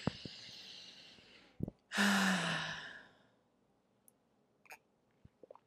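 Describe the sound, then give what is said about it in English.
A slow, deep breath drawn in during a calm guided breathing exercise. It starts as a soft airy breath, then swells into a loud, long inhale of about a second before fading. A few faint clicks follow in near silence. “Let's breathe in.”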